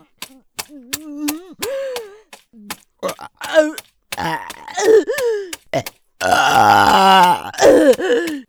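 A person lets out a loud, long, rough burp, preceded by sharp mouth clicks and short voiced grunts and murmurs, with more voiced sounds trailing after.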